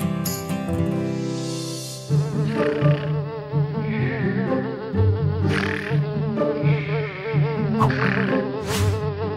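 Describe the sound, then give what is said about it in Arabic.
A housefly buzzes continuously for the whole stretch, a wavering, droning hum that stays fairly loud and steady, with no talk over it. “يا لك من ذبابة مزعجة، أفسدت علي قيلولتي. ها هو المضرب، أين ستهربين مني؟”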